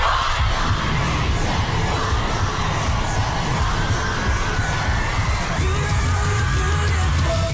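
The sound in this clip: A large crowd of pop fans screams and cheers for a band, producing a dense, unbroken roar of high shrieks and shouts that stays loud for the whole stretch.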